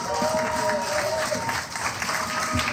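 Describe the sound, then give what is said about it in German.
Audience applause after a song: continuous clapping from a crowd, with voices mixed in beneath it. “Ich finde, das ist noch ein extra Applaus wert.”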